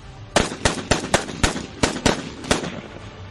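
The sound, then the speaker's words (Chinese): Pistol shots: a rapid, slightly uneven burst of eight sharp, loud bangs, each cracking out and decaying quickly, with no other sound between them. “我和孙胖子身子悬在半空中，同时开了五六枪。”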